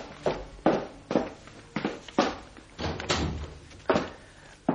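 A door being opened in a radio drama, heard as a run of many dull thumps and knocks at an uneven rhythm, fairly faint and without voices.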